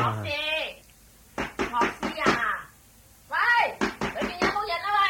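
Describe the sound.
Knuckles knock on a bolted house door in two quick series of sharp raps, separated by a pause. People talk before, between and over the knocks.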